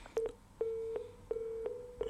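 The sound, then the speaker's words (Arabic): Telephone line tones as a call drops: a steady mid-pitched electronic tone broken into several stretches by short clicks, with faint hiss underneath and no talk. “الظاهر انقطع الاتصال بعمر، لو كان في الاستماع ممكن أن يعيد الاتصال بنا”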